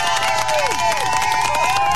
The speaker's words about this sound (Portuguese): Palmas pro Arthur.